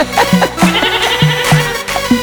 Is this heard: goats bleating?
yes